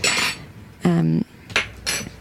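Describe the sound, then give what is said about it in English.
A spoon scoops canned tomato paste into a jar, making a few short scraping knocks and one clear ringing clink of metal against the container. “We've got about 3 cans of this. So if you could just start spooning that into the jar for me, please.”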